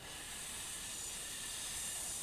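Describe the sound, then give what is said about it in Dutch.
A voice imitates a snake with one sustained, steady 'sss' hiss, exhaled during a breathing exercise. The hiss is faint and unbroken for the whole clip. “Een sss-klank, zoals een slang zo precies.”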